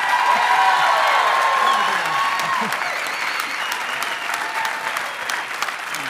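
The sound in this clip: Dense, continuous applause from a church audience during a service, a broad steady wash of many hands clapping that stays loud and then eases off slightly toward the end.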